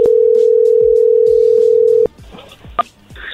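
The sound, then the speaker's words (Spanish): A telephone call rings out as a loud, steady single tone for about two seconds, then cuts off. A short high beep and faint quiet sounds follow. “márcale otra vez. Pero que conteste.”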